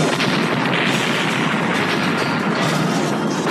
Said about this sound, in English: Duck. The roof blows off.